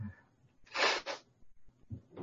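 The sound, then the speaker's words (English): A stifled human sneeze bursts out as one sharp, breathy blast splitting into two quick puffs, followed by faint, low breathing noises. “I'm going to sneeze tonight. I'm fighting it. Sorry about that, gang.”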